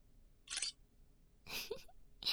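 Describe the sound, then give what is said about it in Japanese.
Camera shutter firing while photographing a sleeping face, three short crisp clicking bursts separated by quiet gaps, the last one cut off at the end. “寝顔の写真撮っとこうっと。”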